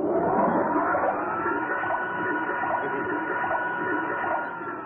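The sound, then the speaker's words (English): A machine motor runs with a shirt and washing powder inside, giving a steady, continuous whirring hum at an even level that eases off slightly just before the end. “Look, first I put your shirt in the machine. Yeah. Then I'll sprinkle some of this powder into it. Then I start the motor.”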